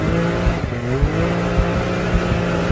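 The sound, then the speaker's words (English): A Can-Am off-road vehicle's engine revs with a steady, throaty drone and regular pulsing throbs, rising briefly in pitch partway through. “Can-Am machines are designed to make your heart race.”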